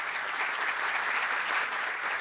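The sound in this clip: Applause from a crowd honouring soldiers and police at a tourism-recovery speech in Colombia, a dense, steady wash of clapping holding an even loudness throughout the short clip with no voices over it.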